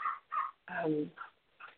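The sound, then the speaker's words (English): A dog barking outside: five fairly faint bursts, short yelps on either side of a longer, tonal whine-like bark in the middle. “The dog is now barking outside.”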